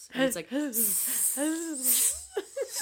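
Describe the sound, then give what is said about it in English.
A voice imitates a snake's hiss: a couple of airy, sharp hisses mixed with wavering voiced vocal sounds, all fairly loud. “For anyone who watches New Girl, I'm trying to reference when fucking Winston can't do a snake noise.”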